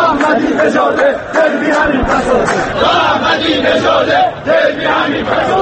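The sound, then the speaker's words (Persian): Football spectators chant slogans outside Azadi Stadium after a Persepolis–Esteghlal league match. A loud mass of voices shouts in rhythmic unison, forming a continuous roar with brief dips. “اما خارج از ورزشگاه آزادی شعارهای گروهی از تماشاگران دولت احمدی نژاد را در مزان اتهام قرار داد.”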